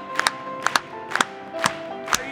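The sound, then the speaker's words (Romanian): Congregation clapping during a church service: five evenly spaced, sharp claps, each slightly doubled, with a faint held tone underneath. “Haideți să o aplaudăm!”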